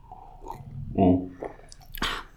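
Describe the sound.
Soft sipping and swallowing of green tea flavored with pineapple and goji berries, a few quiet wet mouth sounds followed by one sharper slurp near the end.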